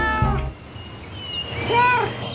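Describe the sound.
A cat meows, with a drawn-out wavering call near the end and a brief voice near the start.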